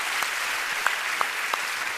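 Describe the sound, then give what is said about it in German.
Audience applause for a performer runs as an even, continuous patter of clapping, with a few sharper individual claps popping out here and there. “jetzt wäre der Applaus für Liz gut.”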